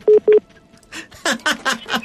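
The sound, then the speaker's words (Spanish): Call-waiting tone signalling another incoming phone call: two short, loud beeps, followed by people talking. “Creo que tenemos otra llamada ahí tratando de entrar.”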